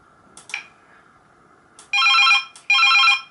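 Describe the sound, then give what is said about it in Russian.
Cordless phone handset ringing on an incoming call: two bursts of a bright, trilling electronic ring, each lasting about half a second with a short gap between them, preceded by a few faint clicks. “могу наоборот теперь звонить на первую трубку”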